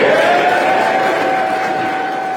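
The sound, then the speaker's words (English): Members of parliament applaud after the Prime Minister survives a confidence vote, a dense, sustained roar of many hands clapping that eases slightly toward the end. “An eruption of applause for the British Prime Minister Boris Johnson as it became clear that he would survive a substantial rebellion against his leadership”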